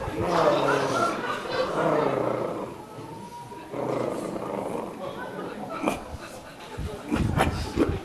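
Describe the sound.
Dog whimpering and barking in excitement before a walk: throaty whines and growling vocalizing throughout, with a few sharp short yelps in the later part.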